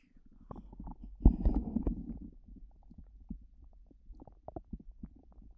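A stomach rumbles and gurgles up close. The sound is soft overall, with one louder churning burst early on, then scattered faint bubbling gurgles.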